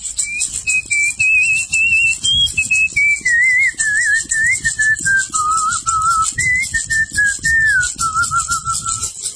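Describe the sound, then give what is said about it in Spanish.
A healer's ritual whistle, used to open a healing session: a single clear human whistle carrying a wavering melodic line in short phrases, stepping gradually lower in pitch overall, alone and fairly loud. “Una mesada para curar, tengo que abrir los encantos mencionando a Dios con un silbo, que eso me nació a mí. Es el silbo de los grandes maestros curanderos.”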